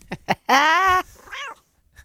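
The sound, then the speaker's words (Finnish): A cat meows alone: one long, loud, clearly pitched meow, then a shorter and softer second meow. “Miau, kissa Kurnauski. Miau.”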